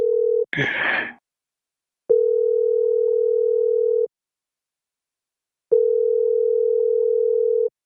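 Telephone ringback tones while a call is placed: a brief burst of noise, then two steady, loud tones of about two seconds each, separated by a gap of silence.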